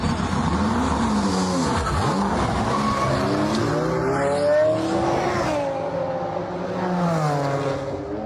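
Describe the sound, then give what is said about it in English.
A race car driving at speed, its engine a loud, continuous roar whose pitch sweeps up and down several times, with a sharp dip early on, and no voices. “That's the sound of a car raced by Team Brit.”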